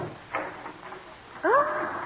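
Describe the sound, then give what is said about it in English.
A shop door opens: faint soft knocks give way to a short, creaking hinge squeak that rises in pitch, clear but brief against quiet surroundings. “Open the door for me”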